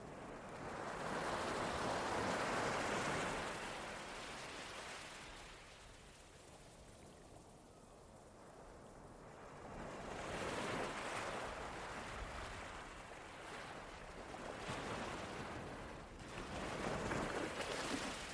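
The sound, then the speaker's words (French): Soft sea waves wash onto a beach, the hissing surf swelling and receding in a few slow, broad surges with calmer stretches between them. “Vous prenez cette pause face à la mer, à l'ombre d'un joli arbre, et regardez ce paysage magnifique que la nature vous offre.”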